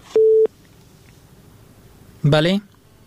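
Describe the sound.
A single short telephone busy-tone beep after a dropped call, steady and mid-pitched, followed after a pause by a brief burst of voice.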